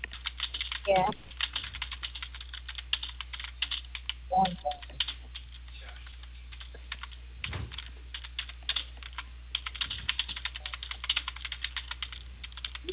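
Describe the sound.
Rapid typing on a computer keyboard: many sharp key clicks arrive in uneven bursts, broken by a few short moments of a voice speaking.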